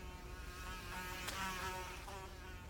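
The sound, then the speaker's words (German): A fly buzzing while it is chased: a faint, steady insect drone with a thin whine that carries on for about three seconds, with slight swells but no break. “Eine Fliege jagen.”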